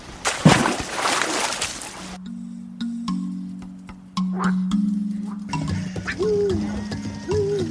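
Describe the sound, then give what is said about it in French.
A splash of someone diving into water on the way to a beavers' lodge: a loud, broad rush of water in the first two seconds, then a steady low drone with a few faint chirping tones. “Prends une grosse inspiration et plonge avec moi, ma grande.”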